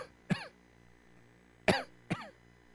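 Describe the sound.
A voice imitates a harsh, worrying cough: three short rasping bursts, a lone one first, then two close together after a pause, each loud and abrupt against a quiet background with no talk.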